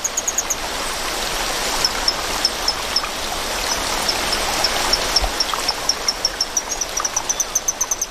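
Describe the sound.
Loud flowing stream water makes a steady, dense rush throughout, while many short, high-pitched chirps repeat in a fairly regular series above it.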